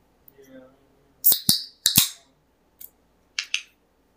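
A marker squeaks across a whiteboard in several short, sharp strokes in uneven bursts, with brief pauses between them.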